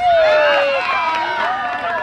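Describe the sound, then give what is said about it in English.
Children cheer and shout during a soccer cone-dribbling drill. Several high voices overlap in a loud, continuous burst of excited yelling that lasts about two seconds. “A boy is the first to hit a cone. The girls cheer and the boys all curse in a mixture of Spanish and Haitian Creole as they drop and do 5 push-ups.”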